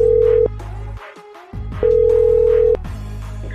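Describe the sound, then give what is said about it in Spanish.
Telephone tones as a call is dialed for a prank call, two long steady beeps separated by a short gap over a low hum, with no one speaking. “Vamos a marcarle. Ahí está marcando ya.”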